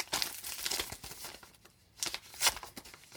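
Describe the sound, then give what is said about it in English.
A golden paper envelope being torn open, with crinkling and rustling rips in a few uneven bursts, fairly faint, with no talking. “I'm really enjoying opening beautiful golden envelopes. So, let's see whose names are inside this one.”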